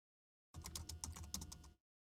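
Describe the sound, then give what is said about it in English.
Typing on a computer keyboard: a short, faint burst of quick keystrokes lasting just over a second, with silence before and after. “I'm going to look it up here. I'm going to type this in. Define communism.”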